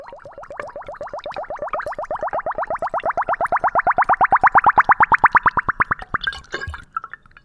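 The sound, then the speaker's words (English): Homemade plum wine glugging through a funnel into a bottle as air escapes, a long run of rapid, regular bubbly pulses whose pitch climbs steadily and grows louder, ending with a few irregular splashy gulps. “When the wine passes through the funnel and into the bottle, air escapes, creating this little bubbly crescendo.”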